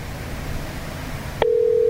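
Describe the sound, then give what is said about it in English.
A telephone call connects over a hiss of line noise, then a brief click and a steady, single-pitch ringing tone that starts partway through and holds to the end, with no voices. “Oh, we're ringing.”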